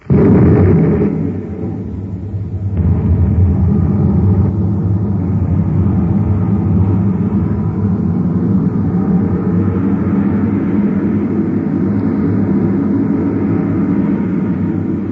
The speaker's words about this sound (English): Stand by to fire rockets. Half G acceleration. Standing by, sir. One half G. Fire rockets.